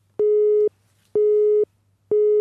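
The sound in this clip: A telephone busy tone sounds after a call cuts off: three steady, identical beeps, each about half a second long and evenly spaced, heard alone.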